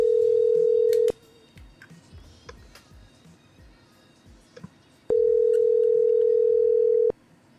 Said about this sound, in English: I'm going to call his landline now and just do the same thing.